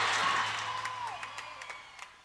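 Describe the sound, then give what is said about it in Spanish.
Studio audience applause on a Buenos Aires radio show: a dense, steady wash of many hands clapping that slowly fades away. “¡Aplauso para Coco! ¡Muchas gracias!”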